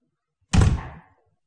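A door being shut, a single dull, heavy thud with a short fading decay, alone against silence.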